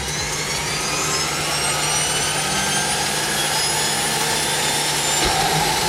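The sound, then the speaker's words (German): Propeller aircraft engines roar loudly and steadily, a dense continuous drone with a low hum underneath and no pauses throughout. “Wir starten die Propeller.”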